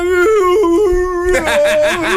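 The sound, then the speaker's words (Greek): A dog howls along to chanting at a priest-led blessing of the animals. The howl is loud, sustained and wavering, with stepped shifts in pitch, and turns rougher and noisier in the second half. “Πώς ψέλνει ένα σκυλί.”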